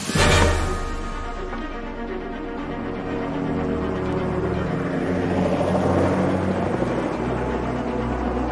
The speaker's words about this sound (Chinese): 我看到飞机了，情况怎么样？